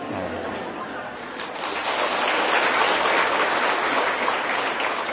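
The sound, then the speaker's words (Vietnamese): Audience applause at a Buddhist talk: dense, steady clapping that swells after the first second and holds at a full, even level to the end. “Bộ đúng lắm sao mà vỗ tay vậy?”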